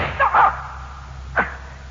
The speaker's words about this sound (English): I only shot you in the leg.